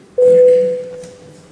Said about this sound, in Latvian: Deputāti vēlas balsot. Lūdzu zvanu.